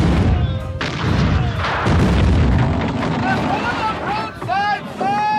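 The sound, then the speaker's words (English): Cannons fire in a naval battle staged as a radio drama: heavy booming blasts over a continuous rumbling roar, with voices shouting toward the end. “Make ready the guns! Form line of battle! Guns ready, sir! Fire at will! Fire!”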